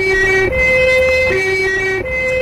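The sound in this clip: An ambulance siren sounds loud and steady in a two-tone pattern, switching back and forth between a higher and a lower pitch with no voices over it.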